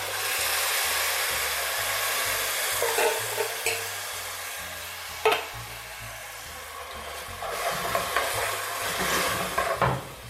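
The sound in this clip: Canned tomatoes are added to a hot pan of ginger, garlic and scallions, setting off a loud, steady sizzling hiss, broken by a few sharp knocks of stirring.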